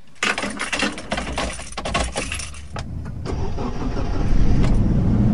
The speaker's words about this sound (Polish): Teraz pytanie sakramentalne. Odpali? Jak najbardziej tak. To spróbujmy.